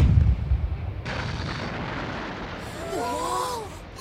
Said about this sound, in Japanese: 私大砲なんて撃ったことないわ。 簡単よ、私が教えてあげるわ。